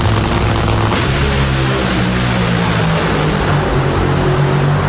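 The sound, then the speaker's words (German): Dragster race cars rated at 10,000 horsepower roar at the Hockenheimring drag-racing event. The engine noise is a thunderous, dense wall of sound that stays loud and unbroken for the whole clip. “Ja, 10.000 PS. So hört sich das am Wochenende auf dem Hockenheimring an.”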